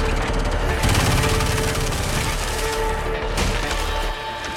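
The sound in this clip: Blaster rifles fire in a dense, continuous barrage while vines split and fall, giving a loud, crackling, splintering clatter with rapid sharp bursts throughout before easing slightly at the end.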